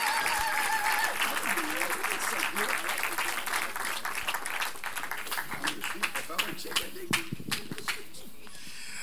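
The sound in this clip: A church audience applauds to welcome a pastor, with dense clapping and cheering voices at first, thinning to scattered individual claps toward the end.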